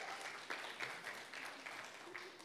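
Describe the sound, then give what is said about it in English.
A church audience applauds, a faint, steady patter of many hands clapping together that continues evenly throughout without pause. “I love this church. Come on, give this church a hand. Come on, people.”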